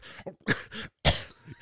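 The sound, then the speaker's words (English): A man's voice imitates harsh coughing after a sip of a spicy drink made with pepper vodka and clamato juice. A few short, rough coughing bursts break up the sound, and the last one is loud. “starts coughing, drops to his knees.”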